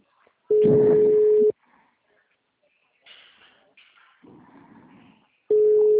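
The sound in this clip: Ringback tones sound on a phone call while it waits for an answer. A steady mid-pitched tone lasts about a second over a low buzz. A gap with faint voices follows, and then the same tone starts again at the end.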